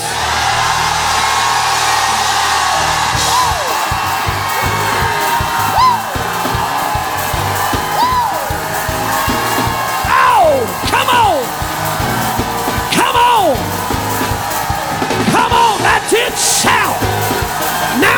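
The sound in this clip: A church audience shouts in praise, a loud continuous roar of many voices with repeated whoops and yells rising and falling above it throughout.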